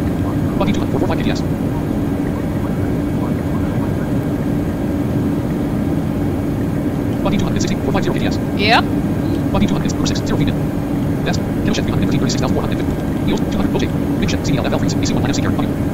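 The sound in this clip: Airplane engine running at full power in a flight simulator video game, a steady low drone that continues beneath people talking throughout.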